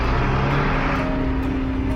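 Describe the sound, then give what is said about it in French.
Night-shift trucks emerging from a 5 m by 5 m mine tunnel, the single access to the mine, make a steady, loud engine rumble with droning low tones and no talk. “Les camions de l'équipe de nuit émergent des profondeurs par un trou de 5 mètres de haut sur 5 de large.”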